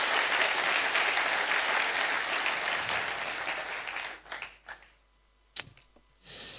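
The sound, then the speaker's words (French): Loud, dense applause from a church audience acclaiming the word of the Lord, dying away after a few seconds into scattered claps and a single sharp clap before the noise returns. “Parce qu'on peut encore acclamer la parole du Seigneur.”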